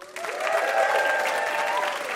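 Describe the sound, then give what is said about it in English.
Applause from a studio audience at a live comedy quiz show taping, welcoming a guest. Dense, steady clapping starts abruptly and holds at an even, fairly loud level to the end. “How about a hand for our VIP, Adam Rappaport?”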